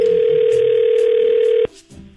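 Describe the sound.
A telephone ringback tone during a prank call to a florist: one loud, steady, hum-like tone that holds for over a second and a half, then cuts off abruptly, leaving faint low sounds.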